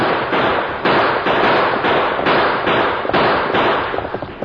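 Rifle gunfire during a stagecoach chase: many loud, cracking shots in a rapid and fairly even rhythm continue throughout, with no voices.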